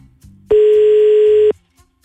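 A telephone ringing tone on an outgoing call sounds as one steady, loud, mid-pitched burst lasting about a second. No voices are heard around it.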